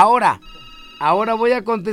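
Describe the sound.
A telephone line rings once with a steady, bright electronic tone. It fills a short gap between stretches of talk on a call-in line that is about to be answered.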